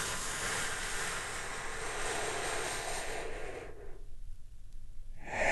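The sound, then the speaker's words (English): A big, deep breath drawn in and slowly released, a steady, breathy hiss lasting several seconds before dropping to near silence, with another breath starting right at the end. “Let's take a big, deep, healing breath right now. Here we go. And”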